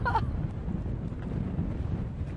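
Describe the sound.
Wind blows outdoors at a coastal island wildlife-monitoring site, a faint, steady low rumble buffeting the microphone throughout.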